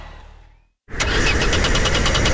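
A car engine cranks and fails to catch in cold, wet autumn or winter weather. A low rumble fades into a short silence, then a loud, steady grinding starts with fast rhythmic pulses and continues to the end without firing.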